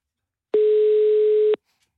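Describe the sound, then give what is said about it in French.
A telephone ringing tone: one steady, mid-pitched electronic tone lasting about a second, alone and clean, with silence before and after. “Ça sonne.”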